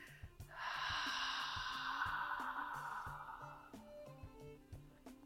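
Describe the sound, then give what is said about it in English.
A long, deep, soft breath is drawn and released during a calming breathing exercise, heard over quiet background music with low repeated notes. “Take a nice deep breath in. Welcome in that support. Receive and then exhale out.”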